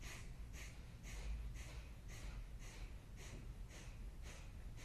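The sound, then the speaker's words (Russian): Forceful nasal exhalations of kapalabhati yoga breathing come in a steady run of short, sharp breathy puffs, roughly two per second. They are faint but evenly spaced, with no talking. “Поднимаемся, выдох. Начинаем дышать капалабхати.”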